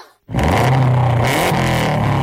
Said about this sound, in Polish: Tak brzmi 280 koni mocy samochodu rajdowego Kajetana Kajetanowicza